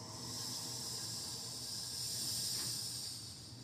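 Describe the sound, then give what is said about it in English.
A voice imitates a hiss with a soft, steady, breathy sound held for a few seconds. It swells slightly louder near the end and is heard alone with no talk. “The hissing gets a little louder, but it starts to slow. So whereas before it was a sss, becomes sort of a”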